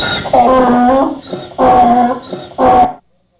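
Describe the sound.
Dogs whimpering and howling in three loud, drawn-out tonal whines separated by short pauses, with the last call ending abruptly into silence.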